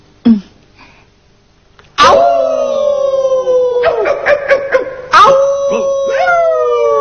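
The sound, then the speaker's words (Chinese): A cartoon dog barks once, briefly and sharply, then lets out two long, loud, wavering howls separated by a short break, with some brief yips between them. “听到呢啲咁样嘅吠声，我就知佢而家冇作怪，我可以放心啦。”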